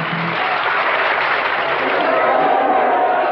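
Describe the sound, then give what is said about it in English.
A New York City audience applauds in dense, steady clapping that holds at an even, loud level for the whole stretch. “The New York City audience applauds.”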